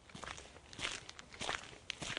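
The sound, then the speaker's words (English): Footsteps walk along a rural road in the hills. Several soft, irregular steps are heard at a quiet level, with no talk. “I've driven about 15 minutes up into the hills above Whakatane, and I'm now walking along White Pine Bush Road.”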